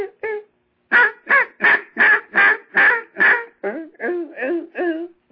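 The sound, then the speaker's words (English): Whining calls blown on a duck call with very little air: a quick burst, then a run of many nasal, quack-like notes in a steady rhythm. The later notes sit lower and slide downward. “that's all I'm saying in the duck call to make it whine. It just very little air.”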